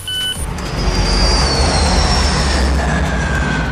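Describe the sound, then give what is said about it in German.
A jet airplane taking off at Frankfurt airport, a loud, steady, broad roar with a deep rumble and thin whining high tones running through it, with no voices. “Geräusch Nummer 2 ist am Frankfurter Flughafen gelaufen. Was war denn das? Das ist das Geräusch eines abhebenden Flugzeugs.”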